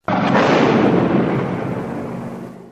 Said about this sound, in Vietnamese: Vừa chạm tay vào quả mìn thì một tiếng nổ dữ dội vang lên.